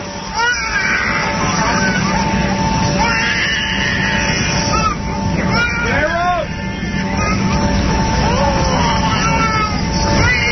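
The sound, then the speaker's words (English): A baby cries aboard an airplane, captured on a handheld cassette recorder. Wavering wails rise and fall over a constant engine drone, with a murmur of other passengers' voices in the background. “He's sitting on the plane, and he says he heard this the whole ride there and the whole ride back. Baby crying. Worst nightmare.”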